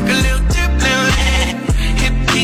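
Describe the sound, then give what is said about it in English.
Goat bleats sound repeatedly in a loud, continuous recording, with wavering, nasal calls that dip in pitch several times over a dense low backing. “again. The goat is getting me every time.”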